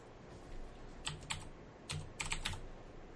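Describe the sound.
Typing an Xbox gamertag on a computer keyboard: a few soft clusters of key clicks, faint and alone, with short pauses between groups of presses.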